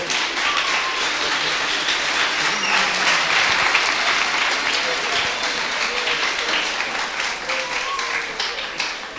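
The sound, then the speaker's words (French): Sustained audience applause as a crowd claps for a man being honoured, a dense, even wash of clapping lasting throughout with some voices mixed in. “Comme tu as dit, tu vas applaudir pour lui, non? Vas-y!”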